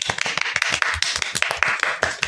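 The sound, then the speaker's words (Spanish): Applause from a studio audience during a Spanish-language show, made of many quick, crisp claps in a dense, uneven patter that carries on steadily for the whole stretch with no voices over it. “Bien, bueno, Calusiner, felicitación. Un aplauso para Calusiner.”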